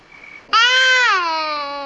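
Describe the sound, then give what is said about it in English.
An infant with colic cries in one loud, sustained wail that starts abruptly, dips slightly in pitch, then holds steady and slowly fades, heard alone. “but he's been crying constantly, Doc. A couple of days.”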